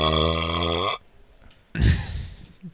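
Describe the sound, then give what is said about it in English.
A single long, low, buzzy burp with a rough, vibrating tone. It holds steadily for about a second and then stops abruptly. “that was a little fry burp.”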